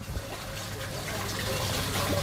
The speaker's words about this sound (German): Hans-Otto Wack deutet im osthessischen Mittelgebirge Vogelsberg auf dicht bewaldete Felsen, aus denen kleine Wasserbäche hervorquellen